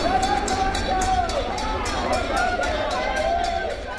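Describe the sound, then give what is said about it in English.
Crowd noise greets runners finishing a 355 km running race from Currumbin Rock, Queensland, to Tenterfield, New South Wales: a steady babble of many voices with regular sharp accents running through it, loud and sustained throughout. “Well, that's the sound at the end of a running race, and they've just run 355 kilometres.”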